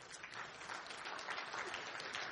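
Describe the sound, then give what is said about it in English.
Audience applause at a gathering announcing a new rescue mission director: dense, even clapping that holds steady at a constant level for the whole stretch. “We don't applaud for that.”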